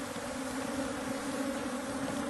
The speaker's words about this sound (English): The bees are just probing, trying to get in everywhere